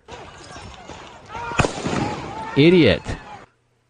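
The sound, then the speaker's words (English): A gunshot from a played video: one sharp, sudden crack cuts through people talking and the muffled sound of the video. “Kyle starts to drop the gun. Then he starts to fucking charge Kyle again, and Kyle shoots him right in the arm.”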